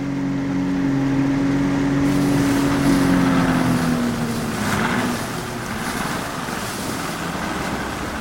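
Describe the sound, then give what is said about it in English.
A motorboat speeds across the sea, its engine a loud, steady drone with a strong low hum that dips slightly in pitch midway, mixed with continuous wind and water rush throughout. “As the boat speeds”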